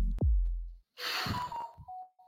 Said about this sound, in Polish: wziąłem głęboki wdech